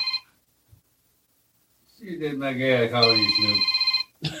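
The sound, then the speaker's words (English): A phone rings with a bright electronic ringtone, a pulsing warbling tone that trills rapidly before cutting off, after a short stretch of near silence. “Your phone ringing. God damn. You got to answer.”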